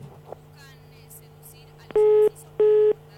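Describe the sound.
Telephone busy signal on a call to a town municipality's line: two loud, steady, evenly spaced beeps in the second half, after a low hum and faint background voices.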